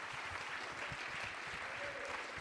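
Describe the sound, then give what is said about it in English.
A church audience clapping their hands during worship, producing a soft, continuous, even patter of many hands that carries at a steady, quiet level without pause. “Let's clap our hands unto him. Let's bless his name.”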